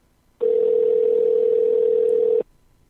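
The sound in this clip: Telephone ringing tone as a call is placed: one steady, unbroken tone lasting about two seconds, alone, with near silence before and after.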